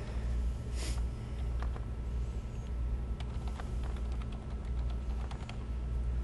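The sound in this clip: Quick, irregular clicks of typing on a computer keyboard during a software demo, faint, over a steady low hum, with no one speaking.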